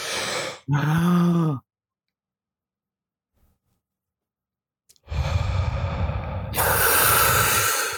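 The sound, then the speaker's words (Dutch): A deep breath being drawn in. A short voiced, sigh-like sound is followed by a few seconds of silence, then a long, loud, breathy rush of air lasting about three seconds. “Volgens mij zegt Karsten altijd diep inademen. Zullen we dat even samen doen? Misschien is dat een goede hier. Ja, dat is goed. Ja, zeg maar Ademen diep in.”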